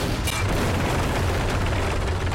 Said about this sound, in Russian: Казах стреляет по приблизившемуся на 100 метров танку.